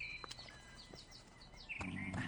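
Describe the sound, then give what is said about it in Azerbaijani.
Birds singing with many quick, high chirps and tweets, faint over a low, steady background rumble. “Quşlarınız çox gözəl oxuyurlar.”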